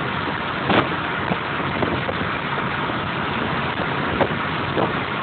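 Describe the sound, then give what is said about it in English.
Wind rush and road roar fill the cabin of a car driven with its windows down on a cold trip home. The noise is a steady, loud, unbroken whoosh with a few faint thumps. “Coming to the end of the trip, I think I have successfully driven home with the windows down, getting weird looks from people.”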